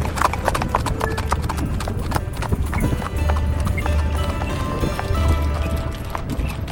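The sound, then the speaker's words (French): Horses' hooves clip-clop on the stone square of the Place des Baumes by a bridge, with horse-drawn carts loaded with big wine barrels arriving. Many dense, overlapping hoof beats keep a steady rhythm throughout. “Moi, j'ai envie de te faire la cavalcade, hein, et de te raconter qu'on arrive là avec des charrettes chargées de gros tonneaux pleins de vin”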